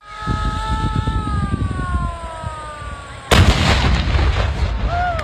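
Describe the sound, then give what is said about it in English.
A World War II D-Day reenactment battle blast cuts in suddenly and loudly. Before it, descending whistling tones sound over a dense, crackling rumble, and a heavy, noisy roar continues after the blast. “the D-Day Conneaut or Ohio World War II reenactment in Conneaut last week that I thought could introduce our story talking about a disaster occurring.”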